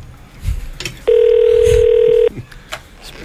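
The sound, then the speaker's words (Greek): A telephone ringing unanswered on a call to a government ministry's agriculture and food line: a single steady electronic ring tone lasting just over a second, loud and even, set against faint low background noise. “Δεν θα το σηκώσει κανείς το τηλέφωνο, ρε!”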